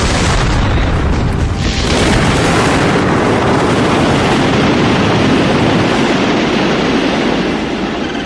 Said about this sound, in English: The Constitution has just exploded. There's nothing left of it.